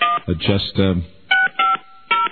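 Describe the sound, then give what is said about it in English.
Touch-tone telephone number being dialed, a few short, clean electronic keypad beeps in a steady sequence following brief talk at the start. “Okay. Well, dial her up.”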